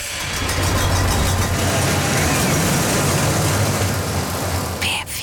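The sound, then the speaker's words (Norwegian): A roller coaster ride produces a continuous loud rattling rumble as the cars run along the track, holding steady throughout with a brief sharper noise near the end. “Berg- og dalbane. Lyden har akkurat vært avspilt en gang.”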